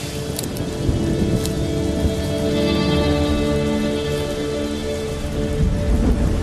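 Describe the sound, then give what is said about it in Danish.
Heavy rain pours down in a dense, continuous hiss of drops that holds a nearly constant loudness throughout, with no pause or let-up. “det regner meget, mand. Jeg skal også godt taget regnjakke med.”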